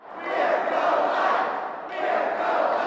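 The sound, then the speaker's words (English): A crowd of more than 200 abortion opponents cheers and shouts for the governor at a rally at the Missouri Capitol. The loud, dense roar swells, dips briefly midway, then rises again and holds. “More than 200 abortion opponents cheered on the governor as he called on lawmakers to strengthen regulations on abortion providers”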